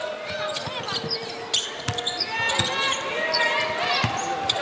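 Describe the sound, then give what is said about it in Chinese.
A basketball is dribbled on the court during a game involving the US team, with several thudding bounces under steady crowd noise and voices talking over the play. “这球两次运球了”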